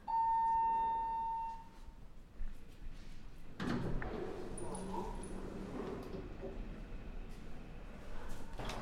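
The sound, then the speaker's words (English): A faint elevator beep sounds in the Vancouver House building at 1461 Granville St as a group rides down to the basement end-of-trip facilities. One sustained tone is followed by a thud and a soft sliding rumble. “we now go back into the building and we'll take the elevator down into the end of trip facilities below grade.”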